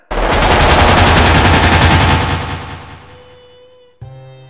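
Automatic gunfire in a firefight: a loud, dense burst of rapid shots for about two and a half seconds, then fading. A separate low sound enters abruptly near the end.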